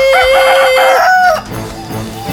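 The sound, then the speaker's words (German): A rooster crows at night in a village, a single loud, sustained, tonal call that holds steady and then cuts off, followed by quieter background noise. “Die ungewohnten Geräusche aus dem Wald regen den Hahn im Dorf der Gallier erneut mitten in der Nacht zu stimmlichen Höchstleistungen an.”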